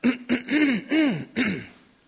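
A person clears their throat in a few short, voiced bursts that arch up and down in pitch, fairly soft and heard alone without talk.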